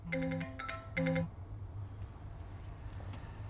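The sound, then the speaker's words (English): A phone rings with an electronic melodic ringtone in two short bursts. A low, steady background hum continues after the ringing stops. “Startled by the phone, he sees Carrie's name on the display.”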